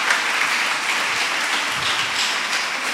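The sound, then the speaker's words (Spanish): Audience applause at a Christian worship gathering: a dense, even wash of many clapping hands holding at a steady, fairly loud level throughout, with no single voice standing out. “Vamos a darle un aplauso al Eliezer.”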